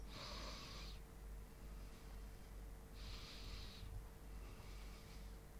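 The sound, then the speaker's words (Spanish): Slow, deliberate breathing during a relaxation exercise: two soft, airy breaths, one at the start and another a few seconds later, faint and unhurried over a quiet background. “Y sigo inhalando consciente y exhalando consciente”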